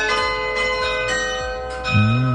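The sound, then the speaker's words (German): Carillon bells ring from the Johannis church tower in Hattingen, a chime silent for years and now playing again: several clear struck notes follow one another, each leaving long, overlapping ringing tones that sustain steadily throughout. “Das ist der Johannisturm in Hattingen, also das Glockenspiel dort. Das war jahrelang stumm. Seit November läutet das aber wieder.”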